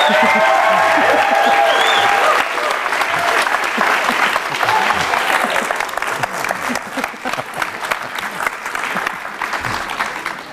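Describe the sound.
Applause and some cheering from a crowd greeting a Game of Thrones director at a fan panel, loud and sustained, easing a little after the first couple of seconds but continuing strongly to the end.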